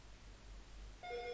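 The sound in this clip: A telephone begins to ring: after a low, steady hum, a single faint electronic ring tone with bright overtones starts abruptly near the end and holds steady.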